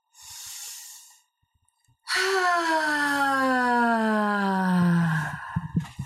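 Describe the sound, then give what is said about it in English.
A loud voiced out-breath during a guided breathing exercise: a short breathy inhale, a pause, then a long sighing exhale whose pitch falls steadily before it trails off into softer breath noises. “increase the capacity of the out breath sound. So by the 5th breath, you're really letting it go fully and completely, okay? Thank you so much. So we're going to move into our first breath on 3.”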